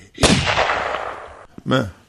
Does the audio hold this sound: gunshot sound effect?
yes

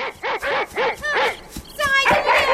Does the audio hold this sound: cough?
no

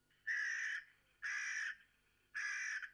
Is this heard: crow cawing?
yes

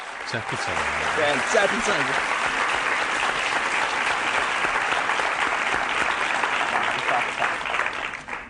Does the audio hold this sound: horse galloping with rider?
no

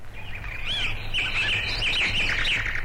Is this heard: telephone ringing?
no

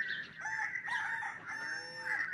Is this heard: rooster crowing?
yes

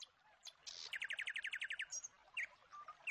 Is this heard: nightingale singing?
yes

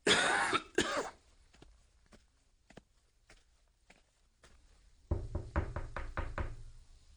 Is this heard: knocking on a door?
yes

